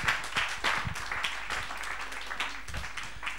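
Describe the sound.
Steady applause from an audience welcoming a minister, moderate clapping that continues without break from start to finish.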